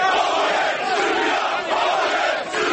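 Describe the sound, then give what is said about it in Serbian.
A crowd of local right-wing extremists shouting chants while disrupting a public forum in Aranđelovac in 2007: a dense, continuous roar of many voices yelling together, loud and unbroken throughout. “Više puta prekidane su tribine Peščanika, a najdramatičnija situacija zbila se u Aranđelovcu 2007. kada je masa lokalnih desničara uz pokliče poput ovog...”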